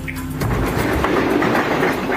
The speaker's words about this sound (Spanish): Ahí está el tren.